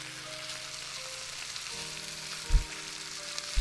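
Food frying in a pan in a video game cooking scene, with one side cooking without being flipped: a steady, even sizzling hiss with faint tonal hum and a couple of soft low thumps, and no voices.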